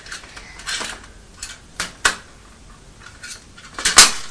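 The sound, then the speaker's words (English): A teaspoon is put into a small tin, giving a few light, irregular metallic clinks and scrapes, with the sharpest clatter near the end. “Are you putting the teaspoon in the tin where we had the money?”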